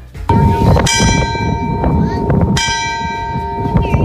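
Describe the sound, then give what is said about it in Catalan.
Church bells ring out loud and clear, with a few strong strikes whose bright, sustained tones hang and overlap in a long shimmering hum between hits. “No és que siguin tres quarts, sinó que aquest, el so de les campanes, és el so del lloc on ens portes”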